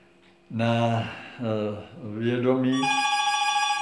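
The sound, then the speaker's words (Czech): A mobile phone rings loudly with a melodic ringtone: a few bright, warbling note phrases, followed by a steady, high, continuous ringing tone that keeps going to the end. “to je můj telefon.”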